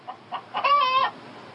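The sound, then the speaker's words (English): A chicken clucks inside a hotel room: a couple of soft, short clucks, then a longer drawn-out squawk, faint overall and heard alone. “I have the chicken in my room.”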